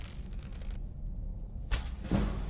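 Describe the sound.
A bow shot and an arrow striking a Dwarven Spider in Skyrim: a sharp snapping release followed shortly by a dull thudding impact, heard over a low, steady game ambience.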